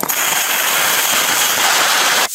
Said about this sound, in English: Officers can be seen popping tires.